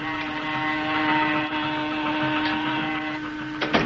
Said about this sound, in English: There goes the motors and the saw.